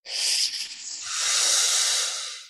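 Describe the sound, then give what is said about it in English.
A slow breath is drawn in through clenched teeth during a cooling breathing exercise, making one long airy hiss that shifts slightly in tone halfway and then fades out. “So teeth together, big smile, breathe in through the sides of the mouth.”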